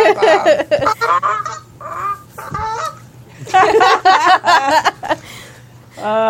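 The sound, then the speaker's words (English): A person imitates a goose honking, producing many loud, nasal, harmonic honks in choppy bursts separated by short gaps, with a final honk after a brief pause. “goose sounds”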